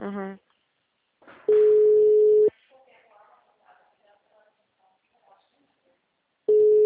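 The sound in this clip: A steady, mid-pitched telephone tone sounds on a Vivo mobile call and lasts about a second. A recorded announcement voice follows, then the same flat tone returns at the end.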